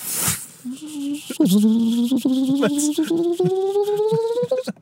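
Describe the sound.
A human voice imitates a fishing reel whizzing as a fish gets away: a nasal, whining tone that climbs steadily in pitch across several stuttering bursts, loud and alone.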